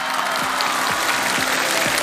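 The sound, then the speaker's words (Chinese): Audience applause at an acrobatics show: dense, steady clapping fills the whole clip at an even, loud level, with no pauses and no voices. “谢谢掌声”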